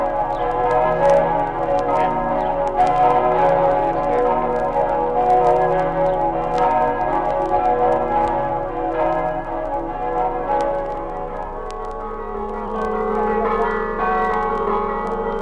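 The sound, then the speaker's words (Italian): Church bells of Friuli ring in a dense, continuous peal that stays loud and layered for the whole stretch, with many overlapping strikes and no talking. “Abbiamo trasmesso Friuli nel mondo, campane del Friuli”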